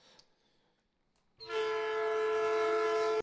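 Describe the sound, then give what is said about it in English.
A horn blast marks the end of period one in a game: after a near-silent moment, a steady, bright, harmonic tone sets in and holds loud and unbroken to the end. “And with that, a fun noise we'll start to hear. End of period one. Might have to fix that horn for later. A little bit quiet.”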